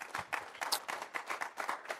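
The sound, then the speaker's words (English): Congregation hand clapping at an evening Bible study, giving a hand clap for the Lord: many quick overlapping claps in an uneven rhythm, fairly faint. “Give the Lord a hand clap for the word tonight.”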